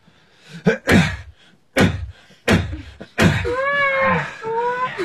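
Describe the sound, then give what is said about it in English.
A lid is shut on a container, heard as several sharp knocks and hollow thuds in quick succession, followed by a wavering, high, whining tonal sound. “Now, let's get that lid on.”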